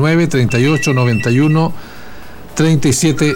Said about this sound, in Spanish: Me está sonando el teléfono, el WhatsApp, está todo prendido a esta hora.